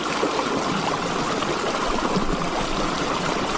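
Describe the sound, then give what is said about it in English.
Water flowing through tidal marshland on the Isle of Wight makes a steady, continuous rushing hiss with no breaks or distinct events. “Listen to the sound of the natural marshland giving way to the tides of history.”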